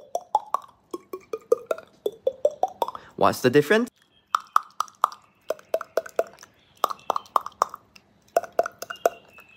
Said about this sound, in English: And step four is to hold your breath or yawn at the same time to get the that hollow thing. This is called the hollow clop.